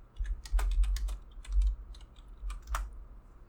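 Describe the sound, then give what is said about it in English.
Computer keyboard typing as a name is keyed in: a few bursts of rapid, sharp key clicks with short pauses between them, the taps light and irregular. “Let me type it in.”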